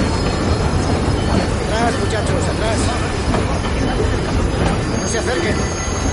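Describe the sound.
A train at a station platform gives a steady, loud rumble that runs throughout, with faint high metallic tones above the dense low noise.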